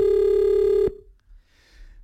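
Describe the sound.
A telephone rings for a call to a radio show: one sustained electronic ringing tone holds steady, then cuts off abruptly, leaving near silence.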